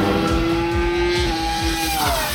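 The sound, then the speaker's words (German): Loud, high-pitched screaming engine note from a Formula 1 race car with an old V10 engine. The wail holds steady, then its pitch drops slightly toward the end, with no talk over it. “den Sound vom alten V10 Motor, mit dem die Kollegen ja noch bis 2005 gefahren sind. Hört sich so an.”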